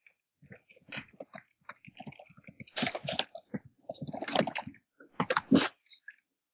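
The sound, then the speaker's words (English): Crunchy chewing and biting of a game die during a tabletop role-playing session, heard as a quiet, irregular run of crisp clicks and squishy bursts, with short pauses between them and no talk. “Did you just try to eat that dice?”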